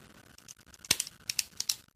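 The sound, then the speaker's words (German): Sharp, dry clicks from a ballpoint pen being clicked: a few quick, crisp snaps spaced unevenly, some in close pairs, over faint background noise. “Also klar, klicken, Kuli klicken wird jetzt irgendwie noch gehen.”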